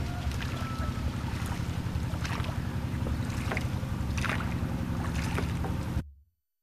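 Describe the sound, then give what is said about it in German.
The last boat pulls away on open water: a steady low rumble mixed with rushing wind and water noise, constant in loudness and then cutting off abruptly near the end. “Dann legte das letzte Boot ab. Und ich war drin.”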